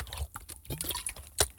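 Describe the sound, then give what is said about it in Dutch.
A person takes a sip of water, heard as a few faint, short wet mouth and swallowing sounds that end in a sharper, louder click. “even een slok water door, omdat Ivo zich druk maakt over mijn waterinname.”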